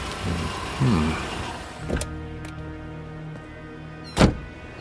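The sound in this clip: A car pulls up in an empty lot at night: a low engine hum rumbles beneath a few sharp mechanical thunks, with the last thud standing out loudest near the end.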